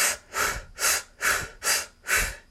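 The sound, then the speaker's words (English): Deep breathing in and out during a guided breath-hold exercise: a steady run of about six loud, airy breaths in an even, fairly quick rhythm, with no talk. “So then again, you start over, breathe deeply again.”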